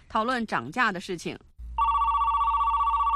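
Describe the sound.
A telephone rings as a sales manager phones a client: a loud, steady, warbling electronic ring. It starts right after a short stretch of speech and carries on alone to the end.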